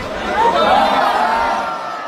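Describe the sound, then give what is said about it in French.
A crowd exclaims at an espadrille throw in a traditional contest at the Fêtes de Bayonne, a swelling collective cry with scattered whoops that builds quickly, holds briefly, then eases off over about two seconds. “c'est un lancer précis et une foule qui s'exclame au sujet d'un lancer d'espadrilles.”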